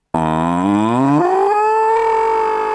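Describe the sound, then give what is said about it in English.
A human voice imitates a cow with one long, loud, drawn-out moo. Its pitch climbs partway through, then holds steady until it ends. “And I used to listen to the cows mooing. And the cows would go,”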